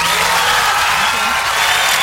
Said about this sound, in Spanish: Démosle un aplauso, colega, un aplauso.